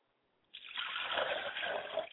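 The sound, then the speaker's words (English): Liquid poured out as a libation: a steady splashing trickle begins after a brief quiet moment and flows continuously for under two seconds, moderately loud and even, with no voices. “I pour libations to the west”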